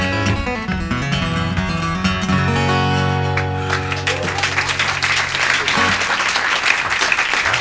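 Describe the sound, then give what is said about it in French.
A few people applaud at the end of a rock song in an intimate concert hall; sustained band notes ring out and fade as scattered, fairly loud clapping rises and carries on alone. “c'est dans une salle assez intimiste, hein, mais on a entendu quelques gens applaudir à la fin”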